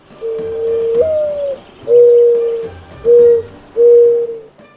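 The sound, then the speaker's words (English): A mourning dove coos loudly and alone: a long opening note that slides upward, followed by three steady, mournful coos with short pauses between them. “The mourning dove got its name from its sad cry, kind of like someone in mourning. It sounds like this.”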